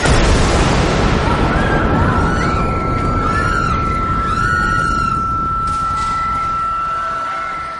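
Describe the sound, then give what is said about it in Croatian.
Grenade explosion in a wartime city under sniper fire, a loud, broad roar that slowly fades over several seconds while a steady high whine runs through it. “Zvuk granate.”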